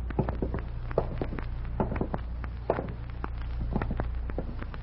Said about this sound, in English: Let's walk over to the bar.